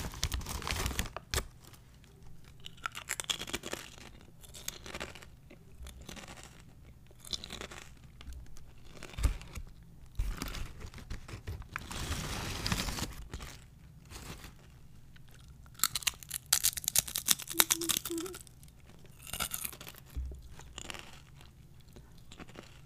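A snack wrapper crinkles and tears, and crunchy paprika-flavoured crisps are chewed. Many loud, sharp crunches come in irregular bursts with short pauses between them, and no voices are heard.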